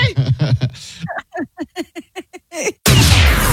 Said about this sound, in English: now I'm going to shoot an orange in my house, and we'll see what kind of damage it does